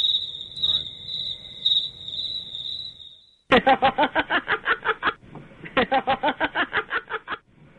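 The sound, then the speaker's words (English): Crickets chirp in a steady, high, pulsing trill. After a brief break, a louder run of rapid rhythmic pulses takes over. “Did you hear the crickets?”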